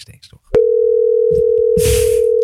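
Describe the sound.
A telephone dial tone sounds while a call is being placed. It starts with a click and holds as one loud, continuous mid-pitched tone, with brief speech before it and a short burst of noise near the end.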